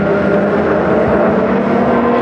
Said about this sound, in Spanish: No puedo detener el auto en su vertiginosa marcha.